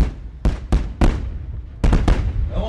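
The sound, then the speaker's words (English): Artillery fire at a military theme park outside Moscow, heard as several sharp, loud booming reports in two clusters, each with a short rumbling decay. “That is artillery fire, a feature at Patriot Park”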